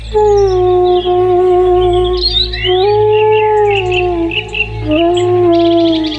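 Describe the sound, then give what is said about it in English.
Birds chirping now and then in a quiet, lush green valley with steep, thickly vegetated banks. A few brief high calls rise over a steady humming drone that runs the whole time. “There's the odd bird chirping, but it is just a very, very peaceful place.”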